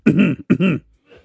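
Throat clearing in two harsh, voiced bursts in quick succession, the second slightly shorter, followed by a faint breathy rasp.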